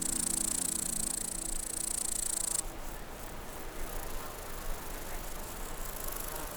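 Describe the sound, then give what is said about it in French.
Grasshoppers and crickets chirp in an alpine meadow at about 1600 metres, a dense, high, buzzing stridulation that is continuous and faint. A sharper, brighter high band sounds at first and then drops away, leaving a rougher wash of chirps. “la prairie électrisée par le son des sauterelles criquet.”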